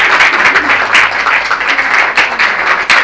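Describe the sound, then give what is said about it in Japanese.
Applause from an audience at a religious audience's gathering, honouring a long-serving lay representative: dense, continuous clapping that stays fairly loud throughout with no break. “皆様今一度緒方さんに拍手を”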